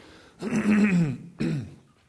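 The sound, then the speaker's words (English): Someone clears their throat in two rough, rasping bursts. The first is longer than the second, and no one is talking. “excuse me, if I can clear my throat here”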